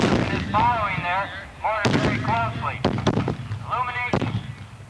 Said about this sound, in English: Our mortars have adjusted and are returning incoming fire.